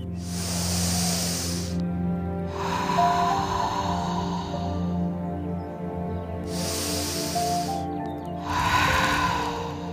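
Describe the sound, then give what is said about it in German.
Slow, deep, conscious breathing during a guided exercise: a few long airy breaths, each a soft rushing hiss, rise and fade over a sustained low musical drone, with no talk. “Drei bewusste Atemzüge.”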